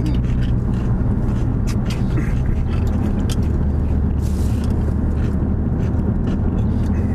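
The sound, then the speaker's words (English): A car driving on a mountain road gives off a steady, loud low rumble of engine and road noise, with occasional faint clicks and crinkles on top. “So we're driving on a mountain road while Peter's eating and driving.”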